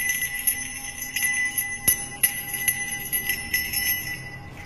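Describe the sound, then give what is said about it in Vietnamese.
A small black brass bell rings with a bright, piercing tone. Several sharp strikes stand out over a sustained metallic shimmer that keeps ringing throughout. “lấy từ trong tay nải ra một cái chuông nhỏ, có lẽ được đúc bằng đồng thau đen sao. Thầy bắt đầu rung chuông, vang lên những tiếng lanh lảnh.”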